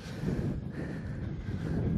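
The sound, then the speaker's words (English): Wind blowing outdoors, buffeting the microphone with a steady, low rumbling roar at a fairly constant level and no distinct separate events. “It's very windy too.”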